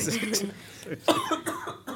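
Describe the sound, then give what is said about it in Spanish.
A few coughs break out among people talking during a panel discussion, short rough bursts scattered through the chatter and mixed with the voices. “es que hasta que cogemos la palabra algunos ya se tosen y todo”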